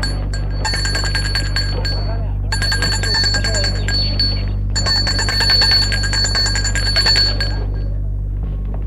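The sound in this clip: A bell rung at the gate of an old house with a gravel courtyard, ringing in three long, continuous metallic bursts separated by brief pauses over a steady low hum.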